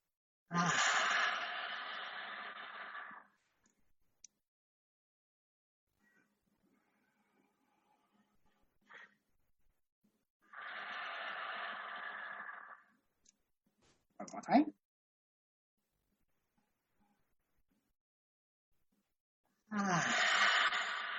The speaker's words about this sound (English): So that is a kindful breathing.